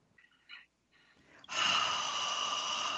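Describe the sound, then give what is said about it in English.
Ujjayi yoga breathing through a constricted throat: a few soft, breathy sounds, then a long, loud, even rush of air, like fogging glass. “connect it to that ujjayi practice that we use in yoga, where the back of the throat is constricted as though you were fogging glass at both in and out.”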